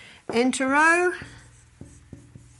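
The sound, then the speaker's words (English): Handwriting with a pen or marker: a brief voice opens, then a few short, sharp scratching strokes tap out at uneven intervals. “I'll write that down for you.”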